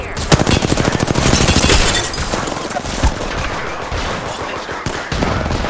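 Rapid automatic gunfire in a shooter video game comes in dense, rattling bursts for the first two seconds, then thins to scattered shots that continue to the end.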